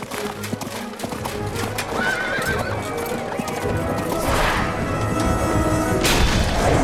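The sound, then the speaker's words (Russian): Horse galloping and neighing during a jousting bout: steady hoofbeats run throughout, with loud, shrill whinnies rising over them. “слезай с лошади. Упади с нее.”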